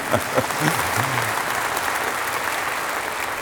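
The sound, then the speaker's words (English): Congregation applause during a church sermon: a brief stretch of a man's voice at the start overlaps the clapping, which then continues as a steady, even patter of many hands to the end. “you can clap if you want. You might be alone”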